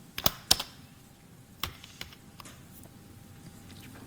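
Typing on a computer keyboard: sharp, irregular keystroke clicks, a quick cluster of loud taps at the start, then sparser, fainter presses spaced out over a quiet background.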